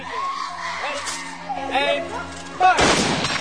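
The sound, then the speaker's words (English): A gunshot fired at a funeral: one loud, sharp blast with a decaying tail near the end, following a stretch of voices. “Jolina jumps with every gunshot.”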